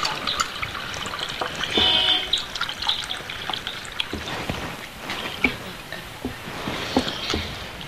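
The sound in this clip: Liquid pouring by hand while preparing food with a spoon nearby, a steady watery splashing that runs through the whole clip with small irregular spikes and no talk.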